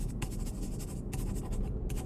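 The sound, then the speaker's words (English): A pen writing a telephone number on a torn-out notebook page, heard as quiet, short scratchy strokes in an irregular rhythm over a low background rumble. “On one of them, write your telephone number and give it to me.”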